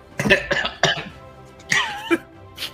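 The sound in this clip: A person coughing: several short, harsh bursts of coughing and throat clearing, loud and spaced unevenly with brief pauses between them.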